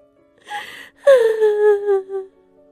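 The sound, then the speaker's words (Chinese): A woman sobs bitterly in an audio drama: a short gasping whimper, then a long, loud wailing cry whose pitch slides slowly downward before it trails off. “傅心怡呜呜的哭了起来，她哭得极为伤心，将这些年作为庶女无依无靠的委屈都哭了出来”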